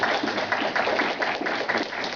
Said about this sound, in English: So I'd just like, if we could be giving a round of applause and thanking Michael.